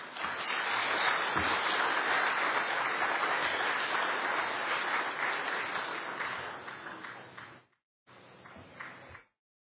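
A church audience at Woodland Christian Church applauds a guest with a warm, dense wash of clapping that holds steady, then tapers off, stops briefly, and returns as a short final burst.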